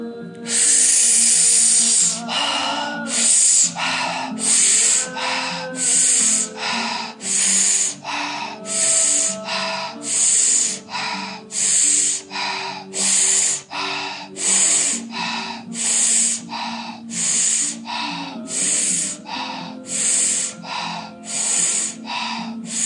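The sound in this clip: Rapid breathing in and out during a breathing meditation: many sharp, hissing breaths in a steady, quick rhythm, with soft sustained music tones underneath.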